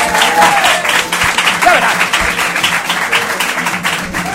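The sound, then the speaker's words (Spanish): Audience applause welcoming a guest: many hands clap in a dense, steady patter at a fairly loud level throughout, with voices partly audible beneath it. “Sí, señor, sí, señor, un aplauso.”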